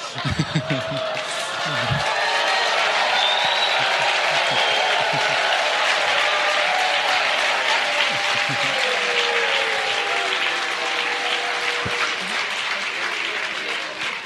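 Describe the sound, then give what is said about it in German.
Audience applause at a church conference: dense, steady clapping builds within the first two seconds and stays loud and even to the end, with a voice briefly audible at the start. “I think Pastor George gets a much more enthusiastic clap than I do.”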